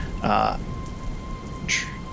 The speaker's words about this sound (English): There is rain coming down everywhere around you.